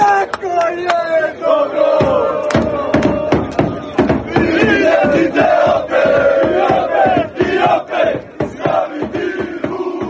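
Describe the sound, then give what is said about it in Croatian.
Croatian football fans chant in the streets of Rotterdam before a Nations League match against Spain. Loud massed voices chant continuously, with many sharp percussive hits. “Od jutra se čuje ovakvo navijanje na ulicama Rotterdama, koji je preplavljen kockicama.”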